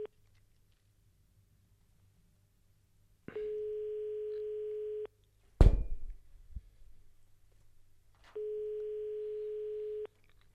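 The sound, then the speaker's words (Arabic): Telephone ring-back tone on a call placed during a live radio call-in show: two long, steady, mid-pitched beeps separated by a pause, with a sharp knocking click in between. “اذا التليفون كيصوني كنتظروا.”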